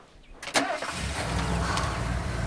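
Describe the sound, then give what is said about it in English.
A Jeep's engine starts with a sharp burst, then runs on as a steady, loud, low rumble that holds to the end. “As Jeff and Tracy appear, she determinedly puts it in gear and drives away”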